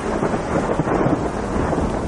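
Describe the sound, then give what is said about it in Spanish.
Rain falls outside a residence as a steady, dense hiss that holds even and unbroken from start to finish with no voices. “Llueve en el exterior de la residencia.”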